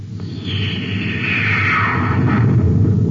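Sci-fi torpedo firing effect from a spaceship shooting at a swerving target among planetoids: a loud whooshing tone sweeps downward in pitch over a steady, heavy low rumble.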